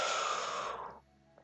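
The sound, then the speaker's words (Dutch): A slow breath in during a cat-cow yoga exercise, as the back is arched hollow, forms a single airy, breathy hiss that holds steady for about a second and then fades away. “Dus de rug hol maken. Over 3, 2, 1. We maken hem hol, ademen in.”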